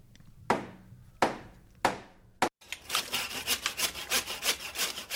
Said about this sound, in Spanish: ¿Qué haces con la sierra? Que te va a cortar un dedo y no va a poder hacer nada con la Lola.